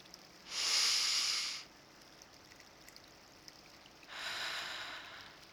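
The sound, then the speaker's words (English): A big, deep breath, soft and airy: a hissing inhale of about a second, a quiet pause, then a longer, equally breathy exhale. “Take a big, energizing breath.”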